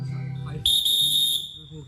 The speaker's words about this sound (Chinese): 上好了好了好，我就给你吹哨子啊。